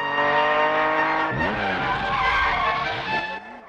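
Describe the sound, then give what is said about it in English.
Tyres screech as a Jaguar car skids through a left-hand bend and its back end steps out. The loud, sustained squeal wavers in pitch over the engine roar and eases off toward the end. “The Jaguar takes a left-hand bend and the back end steps out.”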